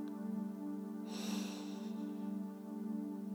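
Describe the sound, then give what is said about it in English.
A single soft exhale during a guided breathing exercise, a breathy hiss lasting about a second over a steady, sustained musical drone. “Exhale with me.”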